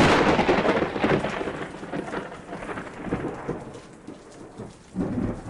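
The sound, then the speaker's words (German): Heavy rain with thunder outdoors at a tent campsite: a loud, dense wash of rainfall with low rolling rumbles that ease off, then swell again near the end. No talking. “Oh Mann, der Regen kommt. Komm schnell ins Zelt.”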